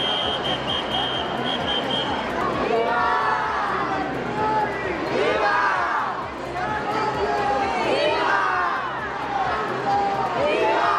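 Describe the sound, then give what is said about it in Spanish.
Thousands of people in the streets of Ceuta chant a welcome to the king and queen. A dense mass of voices cheers and calls continuously, loud and sustained. “Ceuta, los reyes son bienvenidos, han coreado miles de personas.”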